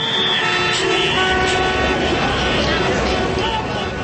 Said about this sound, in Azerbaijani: Tiblis prospektindən şəhərə gedən yolda böyük tıxacların olması çoxlarına tanışdım. Maşınların siqnallarının səsi ətrafı başına götürüb.